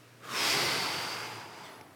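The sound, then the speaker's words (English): Deep breathing by a group during a guided prayer exercise: one long, breathy rush of air swells quickly, then slowly fades away over a couple of seconds, soft and unaccompanied by talk. “So everybody just inhale, and then just hold it for a second or two, and then exhale.”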